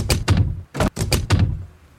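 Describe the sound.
A door is forced open in a dramatised Sherlock Holmes scene, with a series of heavy, dull thuds in an uneven rhythm and a short pause between blows.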